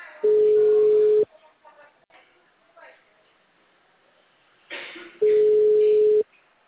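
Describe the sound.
Two long, steady ringback tones of an unanswered telephone call, each about a second long, separated by a gap with faint voices talking in between.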